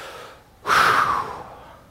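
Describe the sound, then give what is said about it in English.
One deep breath, heard alone: after a near-silent moment it starts with a sudden, loud rush of air, then tapers off slowly over about a second. “Everybody take a deep breath right now.”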